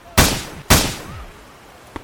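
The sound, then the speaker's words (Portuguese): Two sharp pistol shots about half a second apart, each a loud cracking burst with a short, decaying tail, followed by a faint click. “Na manhã de 15 de julho de 1997, Cunanan caminhou até a casa de Versace, aproximou-se e usou a arma de Jeff Trail para matar o estilista.”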